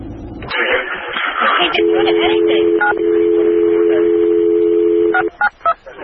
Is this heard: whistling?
no